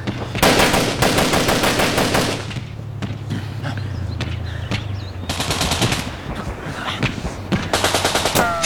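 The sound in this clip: Machine-gun fire from a tank comes in rapid rattling bursts. A long burst opens, a low rumble fills a pause, then another burst follows, with scattered shots near the end.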